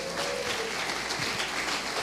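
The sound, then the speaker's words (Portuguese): Audience applause breaks out for a volunteer called up during a talk, a dense, steady wash of clapping that holds at an even level for the whole stretch. “Mais uma vez, um aplauso para o Hugo, por favor.”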